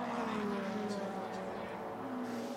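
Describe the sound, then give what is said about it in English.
Race car engines at speed during green-flag racing at the 2023 Petit Le Mans, WeatherTech SportsCar Championship, form a steady, fairly faint droning whine whose pitch drifts slowly downward. “So back to green flag racing.”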